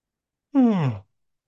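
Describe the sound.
A person lets out a single short voiced yawn during an energy-healing session, the tone sliding steadily downward in pitch before fading out, with silence on either side.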